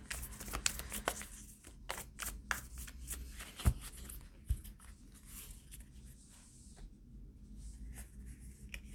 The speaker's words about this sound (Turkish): Bir tane buraya kart çekeyim. Hemen çekeyim hatta.